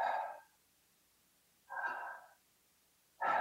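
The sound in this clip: Slow human breathing: a few soft, airy breaths separated by quiet pauses, each swelling and fading gently, with no talk.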